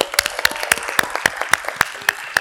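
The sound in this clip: Scattered clapping from a small audience thanking the hosts of a freight business festival: distinct, irregular claps of varying loudness, sparse rather than a continuous roar.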